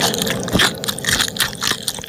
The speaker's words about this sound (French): mange les ailes de poulet et ne laisse que le squelette